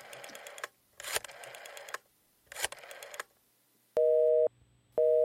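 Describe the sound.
Telephone line tones after dialing an international call: three buzzy, harmonic bursts with pauses between them, then two steady, clean tone beeps separated by a short gap.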